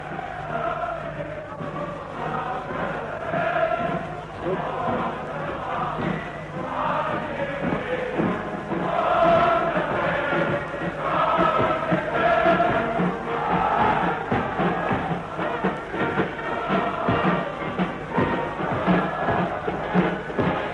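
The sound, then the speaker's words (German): A large crowd cheers at a nighttime torchlight procession, with music from the street coming in through an open window. A steady, rumbling roar with tonal band music woven through it swells slightly at the midpoint and continues throughout. “Wir stehen am offenen Fenster. Sie können jetzt besonders gut hören, wie die Menge jubelt. Wir lassen ihn noch einen Augenblick die Musik von draußen ins Fenster hereinschallen.”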